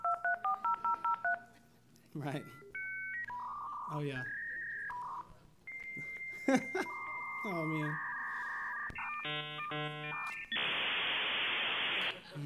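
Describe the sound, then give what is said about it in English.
A dial-up internet modem connecting: a quick run of dialing tones, then a sequence of warbling beeps and pitched tones, and finally a loud burst of harsh static hiss. A few short spoken remarks come in between the tones. “That's the noise of my childhood as a teenager. You know, I heard that noise every day, 7 or 8 times a day. The internet would drop whenever we were trying to dial up because a friend would call.”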